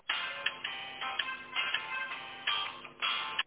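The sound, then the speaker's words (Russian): Telephone ringback tone while a call is forwarded to an operator: a repeating electronic tonal pattern in short, evenly spaced bursts, steady and moderately loud, with no voices. “Вызов переадресован на оператора.”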